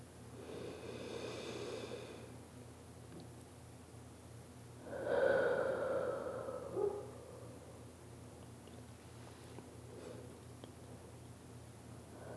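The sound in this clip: Deep breathing during a guided breathing exercise, soft and airy: a gentle breath early on, then a louder, rougher inhale and exhale in the middle, fading back to quiet hiss.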